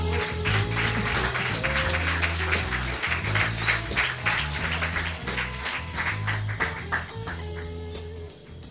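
Audience applause at a poetry night welcoming a guest onstage, a dense, steady wash of clapping that stays loud through the whole clip before easing slightly at the end.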